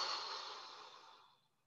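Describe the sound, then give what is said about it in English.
A slow, deep exhale during a guided relaxation: a soft, airy breath that fades gradually to nothing over under two seconds. “And let's take a nice deep breath in. And let it go.”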